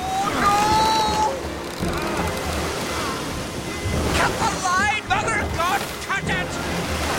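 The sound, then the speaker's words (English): Rushing, splashing water from a small boat being towed fast through the water by a huge hooked fish, a steady loud churn throughout with some brief higher tones over it. “He stops it with his hand and the boat is towed along.”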